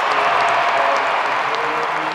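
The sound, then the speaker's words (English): A crowd cheers and applauds at a professional women's basketball game played on the road, a dense, steady roar of clapping and voices with no break. “As for the game, Clark got some cheers on the road.”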